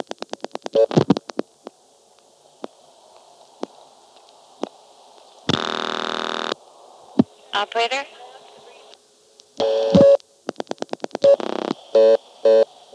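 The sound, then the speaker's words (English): A telephone dials 7 to reach the operator on an old exchange. Quick clicks come first, then scattered single clicks and several short, buzzing tone bursts of varying length. “Operator? That was me dialing 7 again while the operator still was holding it.”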